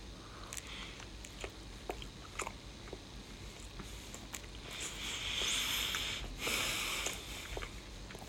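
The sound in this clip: Faint chewing and biting on Korean kimbap from a convenience store: many soft, moist clicks and squishy crunches in an uneven rhythm over a low, steady background hiss, with no talking.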